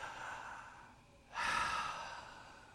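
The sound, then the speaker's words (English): A single deep breath is drawn in sharply as a loud, breathy rush of air. It holds steady and then eases off slowly over faint background hiss. “I want everybody to just take one deep breath.”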